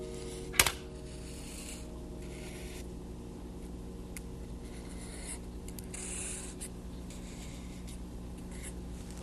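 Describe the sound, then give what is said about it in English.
A marker writing on a surface: faint, steady scratchy rubbing strokes continue throughout, with one sharp click near the start. No one talks. “Use this marker to write, I think I'll write thank you”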